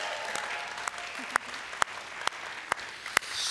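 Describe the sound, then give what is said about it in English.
Audience applause at a welcome on a church's Kearney campus: a steady wash of many hands clapping, with a few sharper, louder claps standing out, and no one speaking. “Come on, give it up for my wife.”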